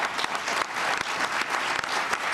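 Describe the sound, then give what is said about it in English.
Applause from a standing ovation, a dense, steady wash of many hands clapping at once, loud and unbroken for the whole stretch with no voices standing out. “Oh, standing ovation. Woo-hoo!”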